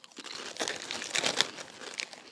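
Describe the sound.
Crinkling of a bag of Cape Cod potato chips as it is handled: a steady run of irregular crackles and rustles lasting a couple of seconds, moderately loud, with no talking over it.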